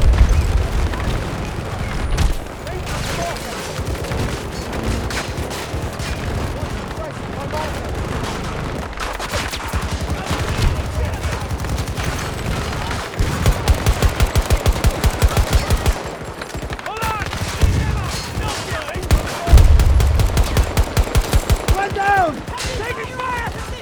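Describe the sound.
Video game gunfire in a battle against a tank and a Jeep: loud bursts of rapid automatic fire and single shots mixed with heavy booms, with the fastest rattling volleys coming later on.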